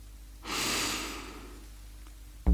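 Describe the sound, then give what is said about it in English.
A deep breath, taken during a guided relaxation, comes as one long, soft, breathy hiss that swells quickly and then slowly fades over about a second. “take a deep breath.”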